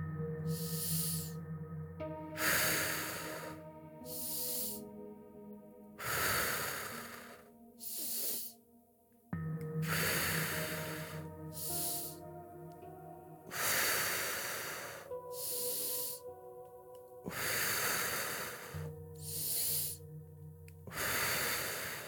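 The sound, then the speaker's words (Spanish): Slow guided breathing in and out, with many airy, hissing inhales and exhales repeating at an unhurried, even rhythm over a quiet, sustained musical drone. “Inhala, exhala. Hacia adentro y hacia afuera. Inhala, exhala.”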